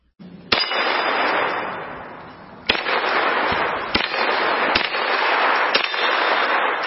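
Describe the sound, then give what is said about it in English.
Five sharp gunshots from a Kel-Tec Sub 2000 folding rifle, spaced irregularly. Each loud crack is followed by a sustained, dense wash of noise that fades slightly before the next shot. “That was the Kel-Tec Sub 2000 assault rifle, which I like because it folds in half and you can put it in your backpack”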